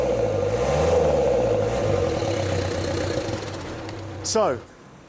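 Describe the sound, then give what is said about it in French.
A turbocharged car engine with oil leaking into its intake idles with a steady rumble, then a short burst of throttle is followed by a whine that falls in pitch before the sound drops quieter. “On va voir si ce turbo fonctionne. J'enfile un gant ici. Un coup d'accélérateur.”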